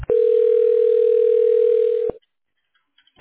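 Steady telephone line tone while a call is transferred to a healthcare switchboard: a loud, even hum lasting about two seconds, cut off by a click, followed by a brief hush and another click.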